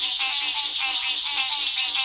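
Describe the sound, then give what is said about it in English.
A chorus of frogs calls from a large pond in a Florida national forest on the Gulf Coast, a dense, high, buzzy trill with many evenly spaced pulses repeating in a steady rhythm, and no voices. “We leave you this week along the Gulf Coast with a symphony of frogs.”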